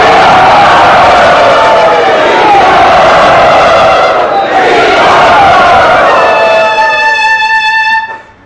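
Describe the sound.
An audience at a Krishna devotional gathering loudly and enthusiastically cheers to welcome a guest, a dense, steady roar of voices for about eight seconds. A sustained high tonal note joins near the end before everything cuts off sharply.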